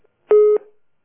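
A telephone line tone as a call is connected: a single short, steady electronic beep lasting about a quarter second, clear and alone, with a brief faint tail.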